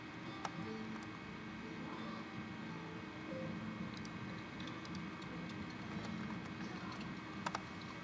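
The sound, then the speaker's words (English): Typing on a computer keyboard during a call, a faint, irregular patter of light key clicks with a few sharper taps standing out over a steady background hum. “Yeah, I can hear you typing also.”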